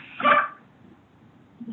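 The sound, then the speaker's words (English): A pet dog gives a single short, sharp bark near the start, and then the room falls mostly quiet, with a faint, low sound just at the end. “That's our dog, Hulk Hogan.”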